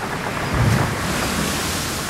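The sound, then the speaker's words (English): Ocean breakers crash and wash in wild, wet Wellington wind, a continuous loud roar of surf with one heavier surge early on and steady wind rumble beneath. “The breakers crash. The breakers crash.”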